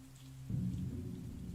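Rain and wind at night in open countryside: a faint low hum gives way after half a second to a louder, steady rumbling rain-and-gust wash that continues to the end.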